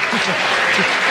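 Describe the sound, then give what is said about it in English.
A studio audience at a comedy panel game bursts into loud, steady applause. A voice briefly sounds over the clapping. “A round of applause. Give him a bonus point.”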